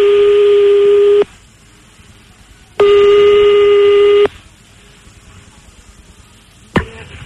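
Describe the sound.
Telephone tones sound as a number is dialed, with two long, steady, buzzy tones separated by a pause and a brief tone cutting in near the end.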